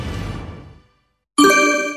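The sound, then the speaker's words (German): Church bells of the parish church of Saint Laurentius in Baumkirchen, Tyrol, ringing at noon: a decaying ring fades out, then after a brief silence a loud, bright, sustained strike sounds alone. “Es ist 12 Uhr. Sie hören die Glocken der Pfarrkirche zum heiligen Laurentius in Baumkirchen in Tirol.”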